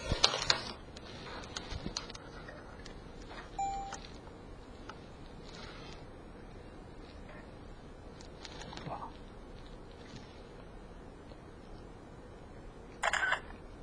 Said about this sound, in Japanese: それで、ちょっと画面を写真撮っとこう。